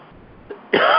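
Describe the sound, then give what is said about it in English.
A single harsh cough or throat clearing bursts out loudly near the end, after a faint short catch of breath, and is cut off abruptly. “I'm sorry about this cough, but it's more annoying for me.”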